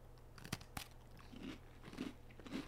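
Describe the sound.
Crisp biting and crunching into a pumpkin cookie: a few sharp cracking bites, then several duller crunchy chews. No voices.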